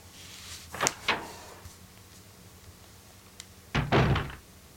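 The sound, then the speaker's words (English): Double doors open in the Resident Evil video game with a pair of quick knocks, a quiet pause, then a heavier burst of wooden thuds and a rattling clatter, all without talk. “Right way around to the other side. Through the double doors.”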